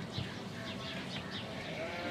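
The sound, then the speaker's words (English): Sheep bleating in a farmyard on a dairy sheep farm with its own cheese factory, several overlapping calls rising and falling over a continuous, busy flock murmur at a steady level. “I'm just climbing into the yard and through the sheep”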